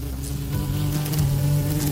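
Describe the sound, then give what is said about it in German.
A wasp buzzes around a meat sandwich roll while someone sits on an outdoor bench in the sun. The steady, low, droning hum holds for the whole clip with slight wavering, and no voices are heard. “Nicht nur du findest das Brötchen lecker, auch das Wespe will ein Stückchen abkriegen.”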